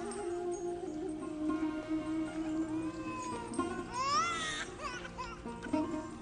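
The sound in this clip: A baby cries and whimpers in a few short, wavering, fretful wails. The cries are fairly faint over a steady low background hum.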